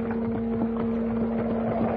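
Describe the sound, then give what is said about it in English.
Steady clip-clop of a horse-drawn wagon's hooves on the road, a regular rhythm of soft knocks repeating throughout over a low constant hum. “I had gone only a short distance when I saw a wagon coming toward me.”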